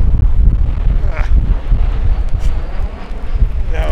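Wind buffets an outdoor microphone at a festival, producing a loud, continuous low rumble with uneven gusting surges throughout.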